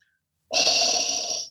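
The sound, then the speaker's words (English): A man imitates a sci-fi villain's heavy mechanical breathing while vaping, producing one loud, hissing breath that lasts about a second after a brief silence and then cuts off. “did I sound like I was vaping more than Darth Vader? I've been practicing that all week.”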